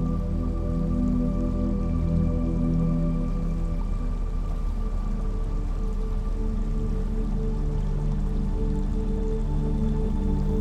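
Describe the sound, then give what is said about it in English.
Running water trickles steadily and evenly, a constant soft, splashy wash with no pauses. “The trickles of running water play in the background, like the notes of your favorite song.”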